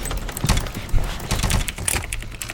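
Gunfire in a multiplayer shooter video game on a server: many rapid shots overlap in dense, irregular bursts, with no talk.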